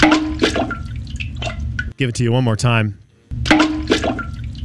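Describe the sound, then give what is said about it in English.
A small item dropped into toilet water gives a short, wet, gurgling plop, heard between stretches of a man talking. “Here's what it sounds like. Here's the item being dropped into the toilet.”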